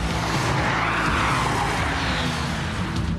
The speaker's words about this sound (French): Je t'avais dit qu'on ferait un peu de drift.